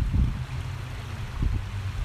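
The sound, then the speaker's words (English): Water flows in a stream, a steady low rushing and rumbling wash with slight swells, continuous and without voices. “You're going to hear the sound of water because I'm sitting by a stream.”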